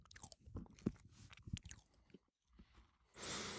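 Biting and chewing of a British snack: irregular crisp crunches with a few sharper, louder bites among quieter chewing, then a steady hiss near the end.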